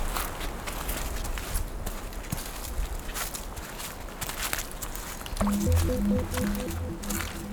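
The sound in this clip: Footsteps on a wet, muddy dirt track: a long run of soft, squelching treads at a walking pace, fairly loud and alone, with no voices.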